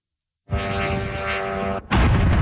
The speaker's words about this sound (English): It's the sound of a drone striking an apartment building in the capital of Kyiv.